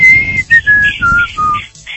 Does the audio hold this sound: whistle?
yes